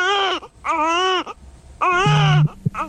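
A newborn baby, just delivered and with the umbilical cord still uncut, cries in loud, high, wavering wails. Three full cries separated by short breaths are followed by the start of a fourth.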